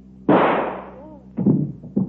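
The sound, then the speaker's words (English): A gunshot as a woman shoots herself in a radio drama: one loud, sharp blast with a long tail that fades over about a second, followed by two shorter, quieter bursts. “Shot herself.”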